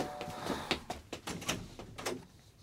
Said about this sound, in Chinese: 门钟响，我去开门。